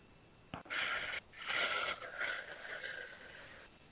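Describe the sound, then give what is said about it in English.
A big deep breath in and out during a guided session for easing pain: a soft, breathy inhale gives way, after a short pause, to a longer, steady exhale that slowly fades. No other sounds or voices. “And take a big deep breath. Letting it out whenever you like.”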